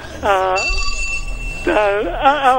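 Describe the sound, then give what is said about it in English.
A telephone rings with a steady, high electronic trill for about a second. A man talks before and after the ring. “Hang on, my phone's ringing.”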